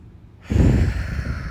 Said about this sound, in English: And I just want to start this episode off with a huge deep breath because universe knows we need it. So go ahead and take a big inhale.